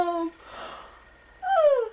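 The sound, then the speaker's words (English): A person yawns, with a long breathy intake followed by a drawn-out voiced sound that falls in pitch. It is fairly loud and heard alone. “sorry, excuse my yawn.”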